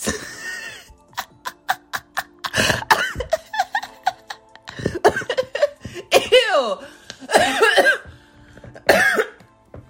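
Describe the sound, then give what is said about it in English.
A harsh, raspy smoker's cough in a long fit of many short, explosive bursts, loud and irregular, with brief pauses between clusters. “Excuse me. I'm getting over COVID 19. I'm just kidding. I'm not. I think I have a smoker's cough.”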